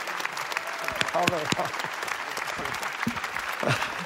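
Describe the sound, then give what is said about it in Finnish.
An audience gives standing applause for Johannes Amritseri. Steady, fairly soft clapping from many hands runs throughout, with voices rising above it at moments. “kunnioituksesta häntä kohtaan noustaa kaikki yhdessä ylös ja annetaan väkevät aplodit hänelle.”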